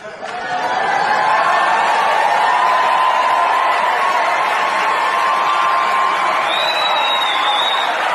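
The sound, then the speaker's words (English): Applause from an audience at a political speech about the next Republican president swells in over the first second into a loud, dense, steady wash of clapping and crowd noise that holds to the end. “I left the applause in for effect.”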